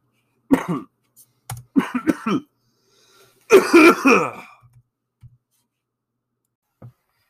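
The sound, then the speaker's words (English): Hacking coughs from a person with a cold come in a few rough bursts, the longest fit near the middle, followed by faint small clicks and quiet. “Excuse me there, I got a cold. Just had a little hack and fit.”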